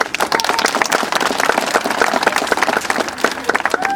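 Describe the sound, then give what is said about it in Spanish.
A crowd claps at an outdoor inauguration of newly laid paving tiles in a city district. Many separate hand claps form a quick, uneven patter at moderate loudness throughout. “Los aplausos, que se escuchen los aplausos.”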